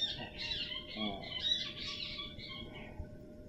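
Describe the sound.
Birds quarrelling, with busy, overlapping high chirps and squawks that run almost without pause over a low background noise.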